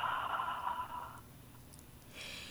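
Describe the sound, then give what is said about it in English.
Quiet, slow breathing during a guided body scan, a long soft inhale or exhale followed by another breath starting near the end. “Do you want to take a few breaths, inhale and exhale?”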